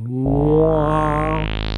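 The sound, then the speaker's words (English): An Xbox console startup sound begins with a low-pitched sawtooth tone that fades in. A filter opens slowly from very low, so the tone grows steadily brighter and buzzier over under two seconds. “what that sound is literally a low-pitched sawtooth wave where I could programmatically start the filter cutoff very, very low, you know, like 20 hertz”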